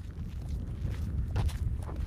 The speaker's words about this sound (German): Longyearbyen ist sehr gewachsen seit dem letzten Mal und das Laufen in dem tiefgefrorenen Schnee ist für uns Städter total ungewohnt